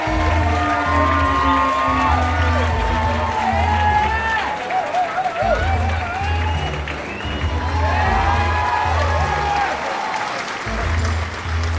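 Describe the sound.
Loud audience applause and cheering greet the host of a library quiz. Dense clapping is mixed with whoops and shouts, surging and easing in waves and staying continuous throughout.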